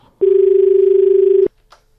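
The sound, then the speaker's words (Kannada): A single steady, mid-pitched telephone tone as a listener's call connects, lasting just over a second on its own before cutting off abruptly, with a faint brief sound after it. “ನಮ್ಮ ಕೇಳುಗರು ಕರೆಗಳನ್ನು ಮಾಡ್ತಾ ಇದಾರೆ ನೋಡೋಣ.”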